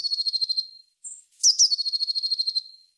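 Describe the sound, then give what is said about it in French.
Blue tit song: rapid, high-pitched trilled notes, then a short pause and a brief thin whistle, followed by a second, louder trill that fades out. No voices. “peut-être que vous avez déjà entendu ce chant, c'est celui de la Mésange Bleue”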